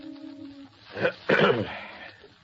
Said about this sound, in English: clears his throat